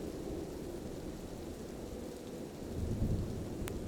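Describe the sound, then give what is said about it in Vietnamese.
Rain falling as a steady, even hiss, fairly soft throughout, swelling slightly with a deeper low rumble in the second half. “Vài hạt mưa trong không trung bắt đầu thả mình rơi xuống.”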